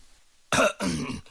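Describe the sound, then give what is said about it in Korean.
A deliberate dry cough, a throat-clearing by a man about to speak at a matchmaking gathering: two short, fairly loud bursts, the second a little longer, with no speech around them. “류구장은 우정 마른 기침을 한 모금 깃고 나서 웃으며”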